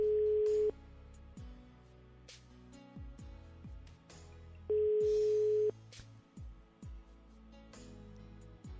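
A telephone line rings during a radio call-in: two long, steady ringback tones sound about four seconds apart, over quiet background music.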